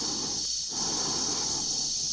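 Dave's breathing sounds over the constant hiss of his oxygen supply during HAL's disconnection scene, with a brief drop in the breath noise near the start before the steady rhythm resumes.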